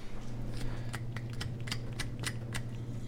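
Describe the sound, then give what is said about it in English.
A spoon scrapes the skin off fresh ginger in many quick, repeated strokes. The faint raspy scratches sit over a steady low hum. “So tell me about how you're peeling the ginger here. So I just use a spoon to scrape the skin off.”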